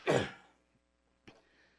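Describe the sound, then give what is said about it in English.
A person coughs: one harsh, loud burst at the start, then a shorter, softer cough about a second later, with near silence between them. “Sorry about that cough.”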